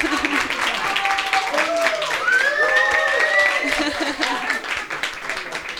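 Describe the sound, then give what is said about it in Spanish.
Audience applause at the close of a session of an educational gathering, honouring a sign-language interpreter: steady clapping throughout, with voices rising above it. “Un aplauso.”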